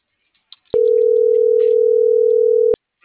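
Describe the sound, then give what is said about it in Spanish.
A telephone dial tone sounds as one steady, loud, mid-pitched hum for about two seconds, with a click at the start and at the end and faint noise before it. “Porque sí te da tono, ¿no? Ajá. Sí, da tono.”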